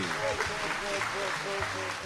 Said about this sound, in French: Tonnerre d'applaudissements pour Bassekou Kouyaté